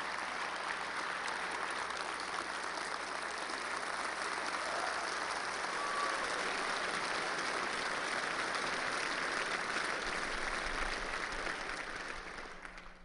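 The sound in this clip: Sustained audience applause at a talk, welcoming a ninth-grade student on stage; a dense, steady wash of clapping holds for the whole stretch before thinning and fading at the very end.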